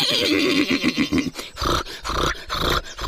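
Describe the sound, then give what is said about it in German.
A horse on a farm whinnies in a loud, wavering, shaky call, followed by rougher, breathier snorting sounds that run on for about three seconds without any talk. “Es gab auch Pferde”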